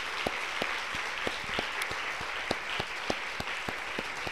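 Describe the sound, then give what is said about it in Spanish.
Church audience applauding: dense, steady clapping from many hands throughout, with a few sharper single claps standing out, and no voices over it. “Demos un aplauso a toda la iglesia.”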